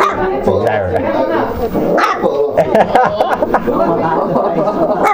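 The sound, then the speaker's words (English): Several dogs bark and yip repeatedly at a person, loud and overlapping in quick bursts, with a voice talking among them. “They're all barking at me, it's funny.”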